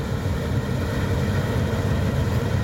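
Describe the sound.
A steady low engine drone from a Claas Lexion combine harvester with a 9.30 m header as it approaches while working through barley, a constant rumble with no voices.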